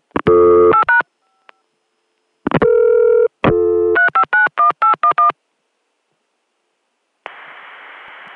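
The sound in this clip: Touch-tone digits dialed on a long-distance phone line between Atlanta and Chicago: crisp dual-tone beeps in short runs separated by pauses, then a steady hiss of carrier noise comes in alone at the end.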